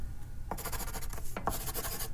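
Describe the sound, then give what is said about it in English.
A pen scribbles on a piece of paper in two short bursts of quick, dry scratching strokes, faint and alone with a brief pause between them. “She scribbled on a piece of paper and handed it to Daniel.”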